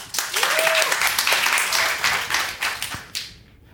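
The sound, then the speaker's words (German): Audience applause, called for during a film discussion: a short burst of dense, lively clapping that holds fairly steady, then thins out and fades toward the end. “Bitte ein kleiner Applaus vielleicht.”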